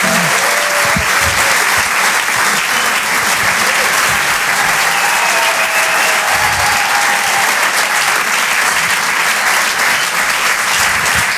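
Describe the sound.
Comedy club audience applauding a comedian after his set, a loud, dense and unbroken burst of clapping that stays level for the whole stretch.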